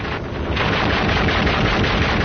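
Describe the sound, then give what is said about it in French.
Gunfire during a front-line patrol in Indochina: a dense, continuous crackling roar like sustained machine-gun fire, loud and unbroken from start to finish. “Notre reporter, parti avec une patrouille, essuie le feu des Vietnamiens.”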